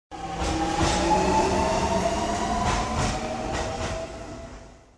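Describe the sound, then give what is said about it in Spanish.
An urban train at a station in Puerto Rico: a steady rolling rumble with faint metallic wheel squeal and clicks builds, holds, then fades away at the end, with no talk over it. “llegó a su destino final, la estación del tren urbano.”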